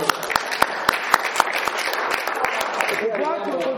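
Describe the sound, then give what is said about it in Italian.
Applause breaks out for a performer: sharp, evenly spaced loud claps stand out over a continuous wash of crowd clapping, and a voice rises through the noise near the end. “Richard Bulegar, un applauso.”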